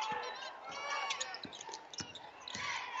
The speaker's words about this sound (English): He just kept dribbling, and finally decided he's going to shoot the basketball